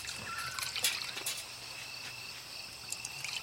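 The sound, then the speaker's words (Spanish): Liqueur is poured from a bottle into shot glasses, a faint, thin trickle with small splashy bursts over a steady high hiss. “La abuela abre una botella y sirve un par de chupitos de licor.”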